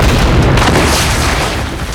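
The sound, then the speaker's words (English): Weapon fire aimed at an unarmed man: a loud, continuous booming blast with a heavy low rumble that holds steady for about two seconds before easing slightly, with no talk. “You're firing at an unarmed man.”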